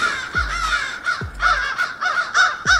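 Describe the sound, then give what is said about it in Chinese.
Crows caw repeatedly in a series of raspy, harmonic calls with an uneven rhythm, fairly loud and with no talk. “是一些疑似乌鸦语的解读。注意听，有三种声音，第一声是长长的大笑，还略带嘲讽，第二声是感觉又尖锐又急促，”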